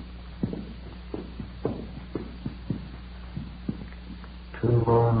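Footsteps going up hotel stairs: a steady run of muted, evenly spaced thuds over a low constant hum, with a louder sound breaking in at the very end.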